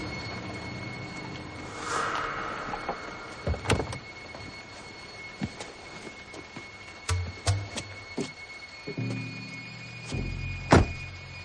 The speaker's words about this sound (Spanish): toma su sombrero se lo pone y sale del coche.